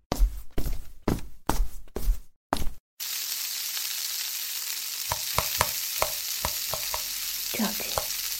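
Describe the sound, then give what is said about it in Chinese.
Kitchen cooking sounds: six separate knocking bursts come first, then a steady, fairly loud frying sizzle takes over, with scattered clinks and taps over it. “我做饭去了。”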